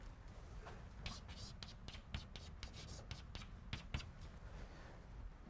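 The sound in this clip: Scratchy strokes of a hand drawing vector arrows, a few short faint bursts of scraping at an uneven rhythm with brief pauses between them.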